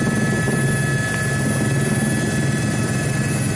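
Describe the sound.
Steady, loud engine and rotor drone of an aircraft coming in to land, heard in a played video. The roar holds even and unbroken throughout, with no voices over it.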